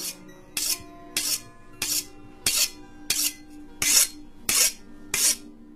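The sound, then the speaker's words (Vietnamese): A metal knife is sharpened on a stone in a steady run of regular rasping strokes, each a short, bright scraping hiss separated by brief pauses. “Tiếp theo, bên tai của cô vang lên tiếng. Cái âm thanh nghe đến rợn người. là tiếng kim loại mài vào mặt đá.”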